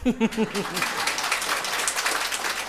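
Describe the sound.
Audience applause at a Buddhist dharma talk: a voice speaks briefly, then a broad, steady wash of many hands clapping takes over and stays loud and even to the end.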